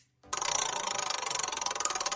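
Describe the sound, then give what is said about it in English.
A prize wheel spun for a game turns with a loud, rapid, evenly paced run of rattling clicks that starts abruptly after a brief silence and keeps going to the end. “Let me spin the wheel here for you.”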